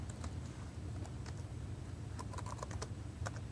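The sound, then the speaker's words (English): Someone types code on a computer keyboard, a brisk, uneven run of many light key clicks over a steady low hum. “I type prop, then tab twice, and it fills that in for me.”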